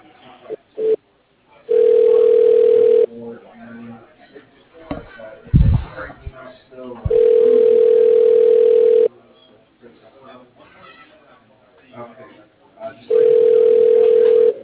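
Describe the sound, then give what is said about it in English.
A telephone ringback tone sounds while a call is transferred to another office line: three long, steady, mid-pitched buzzing bursts separated by gaps of faint background voices and clatter, the last burst cut off at the end. “I can transfer you over to Ravina and such. She's our financial controller. Yeah, that'd be great. Okay, sounds good. I'll try that one moment.”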